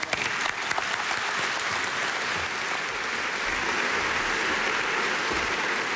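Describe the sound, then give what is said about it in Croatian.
Sustained audience applause welcomes the director general of Croatian Radiotelevision, an even, dense roar of many clapping hands lasting about six seconds. “Dame i gospodo, pljesak za Roberta Šveba.”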